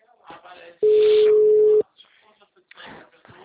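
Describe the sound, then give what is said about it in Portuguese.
Telephone busy tone after a dropped call: one steady, mid-pitched electronic tone lasting about a second, loud against faint talk and line noise before and after it. “a ligação caiu. Oi, caiu.”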